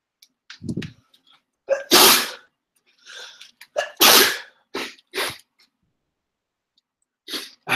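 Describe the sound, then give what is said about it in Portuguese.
A person sneezes several times in succession, with two especially forceful, hissing bursts standing out among shorter, softer sneezes and breaths separated by brief silences. “De novo espirrar.”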